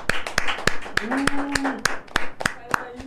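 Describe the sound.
An audience claps in unison on a live show, a steady run of sharp, evenly spaced claps keeping a brisk rhythm while voices talk over them.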